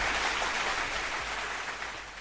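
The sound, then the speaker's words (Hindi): A dense wash of crowd applause rises in response to a call to clap, an even hiss of many hands blended together, holding steady and then thinning slightly toward the end. “सारे लोग आप लोग खुश हो सकते हैं जो नौकरी की तलाश में है। चलो कम से कम सवारियों को नहीं परीक्षार्थियों को थोड़ा तो फायदा हुआ, तो तालियां बजाइए।”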